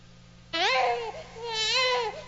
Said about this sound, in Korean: 아기는 태어나자마자 왜 울지?